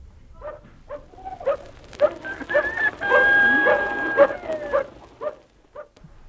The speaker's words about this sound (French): ce chien qui nous a accueillis au seuil de la ferme